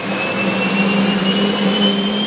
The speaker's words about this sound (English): A lot of fire suppression activity is done by flame retardants using aircraft like this one, a giant Hercules C-130 transport plane.